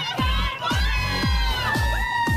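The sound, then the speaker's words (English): Partying women shouting high, drawn-out woos amid a loud cheering crowd, layered over a steady thumping beat. “Yes, don't forget that famous woo. The loud, obnoxious sound women make to try to prove to others they're having a good time.”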